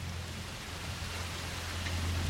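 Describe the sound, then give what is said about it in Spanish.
Heavy rain falling at night, a steady, even hiss of dense drops with a low, constant rumble beneath, with no voices. “Llueve con mucha fuerza y es noche cerrada.”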